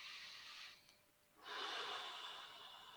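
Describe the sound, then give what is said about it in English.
A deep breath taken during a spoken affirmation exercise: a soft, airy rush of air that dips to near quiet midway, then returns as a fuller, louder breath that holds steady to the end. “Take a breath.”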